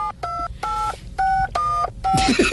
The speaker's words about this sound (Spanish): Espere que lo están marcando.